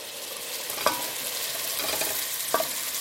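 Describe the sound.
Meat cooks in a pan over low heat with added spices, giving a steady, soft frying sizzle. Two brief scraping stirs break through the hiss.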